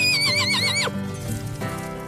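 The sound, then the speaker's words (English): A pony whinnies in a high, quavering neigh that drops sharply in pitch at the end, followed by clopping hoofbeats as it gallops. “She hopped on Frankie B, her trusted pony, and they galloped through the woods and mountains together.”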